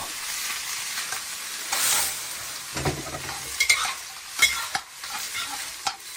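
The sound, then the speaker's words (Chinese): Chopped cattail shoots stir-frying with dried shrimp, a faint sizzle broken by several short scraping and tossing bursts at irregular intervals. “虾米， 炒个10秒，倒入切断的蒲菜， 蒲菜， 对，翻炒3分钟”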